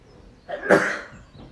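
A single sneeze, a short, sharp breathy burst of moderate loudness, heard alone against a quiet background.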